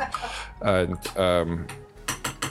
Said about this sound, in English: Stir your rice.